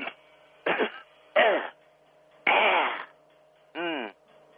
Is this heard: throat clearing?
yes